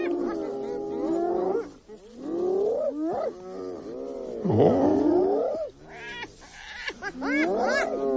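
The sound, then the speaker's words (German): A spotted hyena calls in loud, giggling bouts of harmonic whoops and cries that sweep up and down in pitch, with brief pauses between them. “klingt fast so ein bisschen wie ein Lachsack oder sowas, aber ist tatsächlich die Originalaufnahme einer Tüpfelhyäne.”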